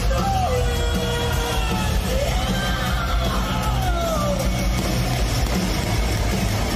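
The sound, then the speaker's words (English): A tank drives over cars, heard as a loud, steady low engine rumble that never lets up, with excited crowd yells and whoops rising over it. “Wow, it's a tank! No way, dude! What? A tank drove a short distance over some cars.”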